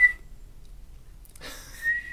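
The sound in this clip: A whistle like a life vest emergency whistle is blown. A brief high tone comes first, then a pause, then a longer, shrill, breathy whistle with airy rushing noise. Fairly faint, with no talking.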